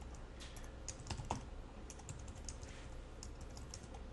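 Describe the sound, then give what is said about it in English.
Typing on a computer keyboard, including the arrow keys: a steady run of many quick, light key clicks, faint and alone without any talk. “I'm using the up and down arrows on my keyboard to find the one I'm looking for. And I'm just going to type in the opening parenthesis.”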